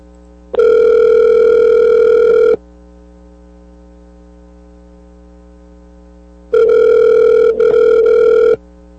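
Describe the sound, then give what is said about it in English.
A telephone hold-line tone sounds as two long, steady beeping tones, each about two seconds, separated by a silent gap. A low mains-like hum runs underneath throughout. “Unfortunately, that hold is not conducive to live radio. It's just a beeping sound.”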